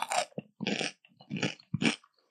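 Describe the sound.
Crisp crunching as someone bites and chews a fresh cucumber, several distinct crunchy bursts separated by short silent pauses, fairly loud and close with no talk.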